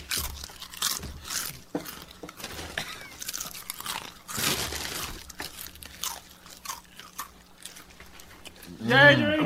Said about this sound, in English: This tavern food is acceptable. Tastes good. But tonight we're eating Blazing Buffalo Ranch. Doritos collisions,